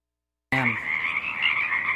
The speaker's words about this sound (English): The song of the Pacific chorus frogs rises and falls above a stiff breeze.